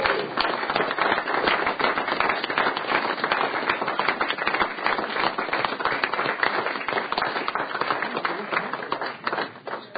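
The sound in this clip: Applause welcoming Miss Wyoming 2017 in the Wyoming Senate, a dense, steady patter of many hands clapping that holds at an even level for about ten seconds without a break.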